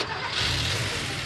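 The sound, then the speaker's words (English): A car engine running on Castrol Edge oil gives a steady, loud mechanical rumble with a constant hiss layered on top, heard alone without talk. “That's the sound of an engine running on the strength of Castrol Edge.”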